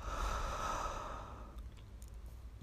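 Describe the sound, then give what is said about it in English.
A long, airy breath out through the mouth during a guided breathing exercise, a soft rushing exhale that slowly fades, followed by a stretch of near quiet with a few tiny clicks. “So breathe in through your nose. Hold. Release through your mouth.”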